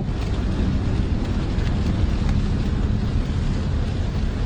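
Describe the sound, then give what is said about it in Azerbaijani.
Autumn rain falling in Ardabil: a loud, steady, dense hiss with a heavy low rumble, continuous and unchanging from start to finish. “Nir, Nəmin, Sərin və Ərdəbildə 14 mm kimi yağış yağıbdı. Yerin, göyün və bizim ürəyimiz bu səsə darıxmışdı.”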